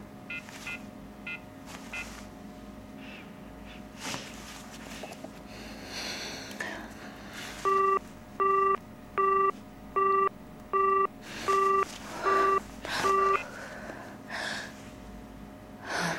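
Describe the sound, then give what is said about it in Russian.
Telephone tones during a call: a few short dialing tones at the start, then after a pause eight evenly spaced, steady busy-signal beeps in a regular rhythm, loud over a low background hiss. “звонит сыну. Аппарат абонента выключен или находится вне зоны сети.”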